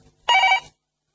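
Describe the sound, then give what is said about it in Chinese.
A telephone bell ringing in one short burst of bright, metallic, evenly pitched rings lasting about half a second, heard alone before falling silent. “等我听啊！ 哇，唔系咁早又打电话嚟系嘛？”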